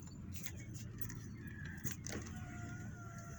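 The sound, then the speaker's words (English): A car drives along a road, heard from inside. A quiet, steady low road rumble runs throughout, with a few light rattles and clicks on top and no talking. “I'm driving while I'm talking, so I got stuff going on around me.”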